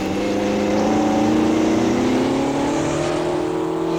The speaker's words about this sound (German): Folge den Spuren, Zweiter. Die sind bald zugeschneit. Ich gebe noch mehr Gas.